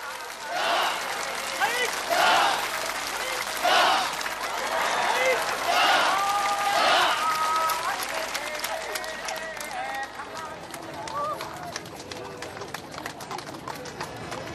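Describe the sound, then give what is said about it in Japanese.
Crowd applause rises from spectators lining the street at Kanazawa's Hyakumangoku parade, which reenacts Maeda Toshiie's entry into Kanazawa Castle. A dense, steady wash of clapping carries on throughout, with voices and a few tonal notes mixed in. “その豪華絢爛の時代絵巻に街頭に並んだおよそ50万人もの観客が大きな拍手を送ります。”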